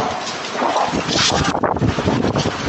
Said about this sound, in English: You can hear it in the Ring doorbell microphone. And he looks across the yard. And the bounce house just picks up with the wind.